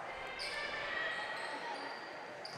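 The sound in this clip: Faint basketball dribbling on a court during a game, the bounces low and indistinct beneath a steady wash of commentary and background noise.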